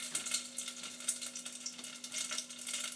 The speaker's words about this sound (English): Let's put the chicken in.